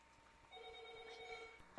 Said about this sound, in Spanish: Ahí está la llamada